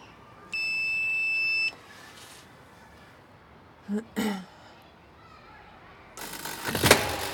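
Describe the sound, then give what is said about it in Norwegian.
A door buzzer at an apartment entrance gives one steady, bright electronic buzz lasting a little over a second, with no voices over it. “Vi kan ringe på. Her.”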